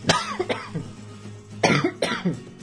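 Dry coughing from an irritated, dry throat comes in two clusters of a few harsh, rasping bursts, with a short quiet gap between them.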